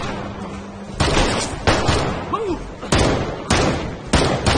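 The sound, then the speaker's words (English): Gunfire exchanged between officers, several loud, sharp shots at irregular intervals, each one rising abruptly out of a rumbling background. “The officers exchange fire. One officer runs behind the convertible. Gabriel leans out from in front of the truck and shoots.”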